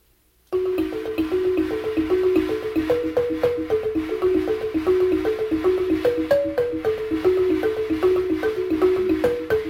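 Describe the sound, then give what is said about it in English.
A Kenyan balafon chime of bronze tubes hung from wood is struck in a quick repeating melody, many bright ringing notes in a steady rhythm starting after a brief silence. “made of bronze tubes hung from wood. This is a balafon from Kenya.”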